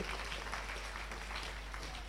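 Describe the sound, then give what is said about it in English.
A church audience clapping their hands during a sermon, a faint, dense patter of many hands that keeps up evenly for a couple of seconds. “Clap your hands to God's word.”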